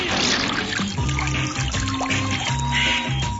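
Water splashes and trickles as a canoe paddle dips in and out, a continuous wet rush with steady music playing underneath.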